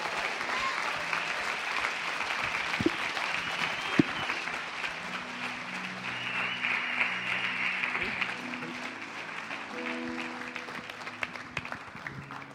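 A church audience applauds to welcome four new members, the applause steady and sustained throughout, with faint musical tones coming in during the second half.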